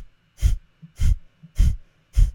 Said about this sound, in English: So a poopy breath might sort of look like I'm squeezing my shoulders and bearing down energetically as I exhale. So if I demonstrate that, and maybe we can even hear the difference in the sound, it's like...